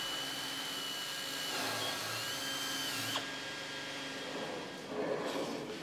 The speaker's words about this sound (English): To see how strong carbon fibre can become, you only have to try trimming the edges. This is a moulded piece of the main wing.